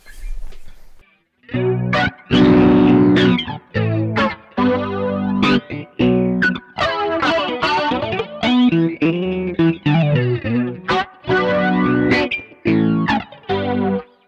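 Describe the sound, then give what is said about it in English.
A musical passage run through a flanger, with comb filtering applied to a delayed copy of the signal, sweeps and swirls through loud sustained phrases separated by brief gaps, after a short silent start. “This is achieved with the comb filtering added to the delayed signal. So it's got a different character to the tape format, but yeah, here's the flanger sound.”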